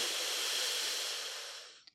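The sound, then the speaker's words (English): A long, deep breath drawn in during a guided reflection, heard as a steady airy hiss lasting nearly two seconds that thins and fades at the end, with no talk. “Let's take a big deep breath into that.”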